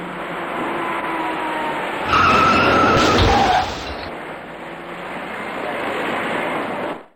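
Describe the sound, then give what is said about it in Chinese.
Tires skidding as a dark car runs into a three-car rear-end collision on a city ring-road main lane beneath a bridge, a loud screeching burst of about a second and a half rising out of steady traffic rumble, which then continues. “驾车从后面开上来的这位深色小客司机在安全意识上明显存在着疏漏，前面的车明明已经减速停下，他却完全忽视，转眼间酿成了一起三车追尾的事故。”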